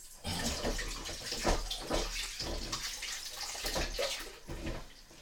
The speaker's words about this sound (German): ich muss mir die Hände waschen. Die sind voll Orangensaft.